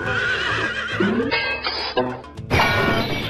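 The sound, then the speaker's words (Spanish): A horse neighs loudly as it refuses to be ridden, letting out a few strong whinnying bursts with shaky, wavering pitch and short breaks between them. “Pero como los caballos no saben hablar, este no le contestó. Entonces decidió subirse a él. Y el animal decidió que no.”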